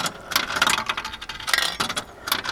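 Coin tossed into a deposit vending machine that dispenses magnifying glasses: faint, scattered metallic clinks and rattles arrive in several short bursts.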